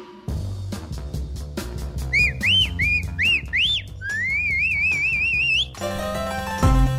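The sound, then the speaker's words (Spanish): Bright melodic whistling in short rising-and-falling phrases, then a longer wavering line that climbs steadily in pitch. It is set over a rhythmic backing of regular percussive beats and sustained low tones. “Ahí está el silbido.”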